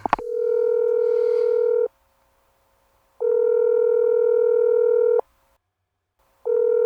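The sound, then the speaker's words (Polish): A telephone ringback tone sounds while a call connects: a steady, mid-pitched tone rich in harmonics, heard in three even bursts about two seconds long, separated by silent gaps. The last burst is cut off. “A teraz spróbuję połączyć się z moją uroczą komentatorką Magdaleną Sadłowską.”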